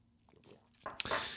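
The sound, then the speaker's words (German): A quick sip of espresso comes as a brief, airy slurp with a small wet click, faint and short after near silence. “habe einen feinen Espresso, von dem ich jetzt auch ein Schlückchen trinke.”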